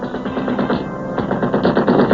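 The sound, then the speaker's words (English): Rapid gunfire rattles in a dense, continuous burst of many sharp shots, loud and even for the whole two seconds with no pauses and no voices. “Go on. Keep firing. Move. Keep firing.”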